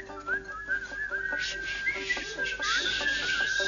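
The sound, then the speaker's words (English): Several people whistle a tune together, a bright, steady melody that carries on without a break and stays fairly loud throughout. “Everybody whistle.”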